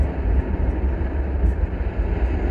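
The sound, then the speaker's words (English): Rocket engines throttle up at launch, giving a loud, dense, steady roar heavy in the low end that continues unbroken throughout. “You are go and throttle up.”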